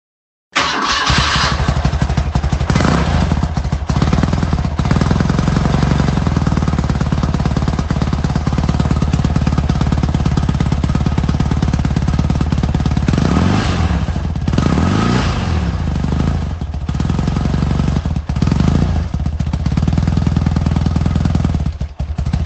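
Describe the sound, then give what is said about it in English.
An R80 G/S boxer-engine motorcycle runs loud and unbroken for the whole stretch, a steady chugging throb with a rough mechanical clatter and no voices. “Did you get it? It was the game-changing R80 G/S”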